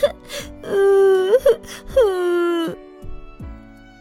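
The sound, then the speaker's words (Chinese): A child's embarrassed crying after wetting himself in class: long, drawn-out wailing sobs. Two sustained tonal wails, the second sliding downward in pitch, are separated by short gasping breaths and followed by faint whimpers. “猪猪难为情的哭了”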